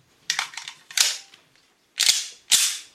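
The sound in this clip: Gunshots fired by a zombie character in an audio drama: several sharp, cracking bangs with short decaying tails, spread irregularly with a few brief pauses between them, and no voices.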